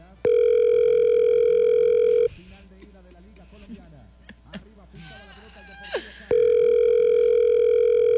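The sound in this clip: An unanswered telephone rings in two long, steady electronic tone bursts. Voices talk in the gap between the rings.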